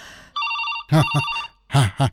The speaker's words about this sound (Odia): ଏତେ ରାତିରେ କିଏ ଫୋନ୍ କରୁଛି? ଆରେ, ଇଏ ତ ରାଧାର ଶ୍ୱଶୁର ଘରର ଫୋନ୍ ନମ୍ବର।